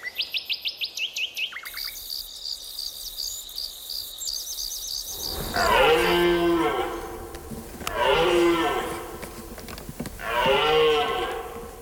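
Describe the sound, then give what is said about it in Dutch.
Deer calls: three long, low, harmonic bellows at steady intervals, loud and moo-like, after opening high chirping from birds or insects. “Dat laatste geluid heb ik in mijn leven nog nooit echt gehoord. Maar ik neem maar dat het een hert is.”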